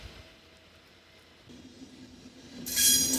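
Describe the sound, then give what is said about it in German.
An ICE high-speed train passes through a railway depot, starting as a low rumble that grows louder and ends in a loud, rushing hiss. “ganz lustig, dass durch das BW mittendurch der ICE fährt.”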